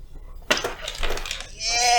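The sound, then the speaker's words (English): Several d10 dice rattle and clatter as they are passed around and rolled at a tabletop game, a burst of bright clicking followed by a voice. “What is it? A D10? Great. You want some more? You want some more? You want to roll them all at once? Yeah. Yeah, here, I got a decent. Yeah, pass them. Here you go. Pass them around.”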